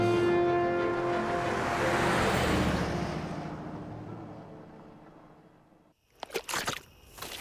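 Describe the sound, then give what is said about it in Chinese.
A car driving along a road toward a village, a broad steady rumble with a low hum that is loud at first and fades gradually over several seconds, followed by a few sharp knocks. “好，再开快点，我们在车上把工作细化一下。”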